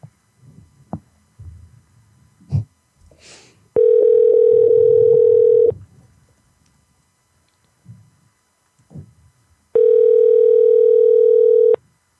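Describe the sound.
Telephone ringback tone during a prank call: two long, steady buzzing tones, each lasting about two seconds, separated by a quiet stretch with faint low noises and brief clicks.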